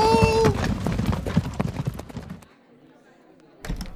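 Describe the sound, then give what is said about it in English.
A horse trots with a quick, uneven clip-clop of hooves for about two and a half seconds, then falls quiet before a short burst of hoofbeats returns at the end. “Oh, best to keep it to a trot. Yeah, don't want to arouse suspicion.”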